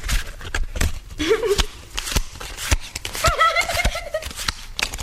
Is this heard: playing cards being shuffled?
yes